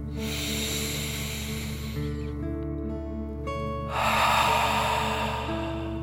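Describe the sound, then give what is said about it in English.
Deep breathing in and out as part of a dragon breath exercise: two long, airy breaths separated by a pause, heard over soft, steady, sustained music. “let's take another deep dragon breath, in and out.”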